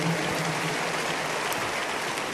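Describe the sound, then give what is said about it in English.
Applause from an audience as a speaker recounts a bus robbery, a dense, steady wash of many hands clapping that holds at an even level throughout. “If you are clapping, make it bigger, better.”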